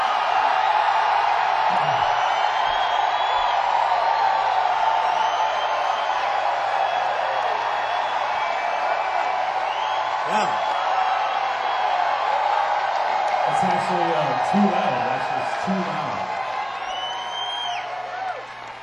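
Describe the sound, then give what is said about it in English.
A very loud audience at a live concert cheers and whoops in a continuous roar. Scattered shouts and a few deep bellows rise out of it later on, and the din eases slightly toward the end. “remember we did that show in Atlanta where the audience was so fucking loud. I think tonight is louder than that. I think it's the loudest audience we've had.”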